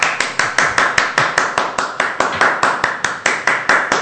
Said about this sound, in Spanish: ¡Aplaude!